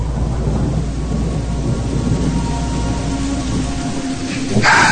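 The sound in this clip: Heavy rain pours in a steady, dense hiss, with low thunder rumbling continuously underneath, and a brief brighter burst near the end.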